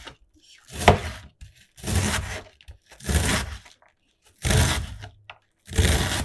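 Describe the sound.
A knife is mincing food on a cutting board in five short bursts of rapid chopping, each a quick clustered run of strikes separated by brief quiet pauses.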